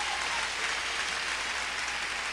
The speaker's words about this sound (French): Bat bravo pour Jésus-Christ, mon pile là.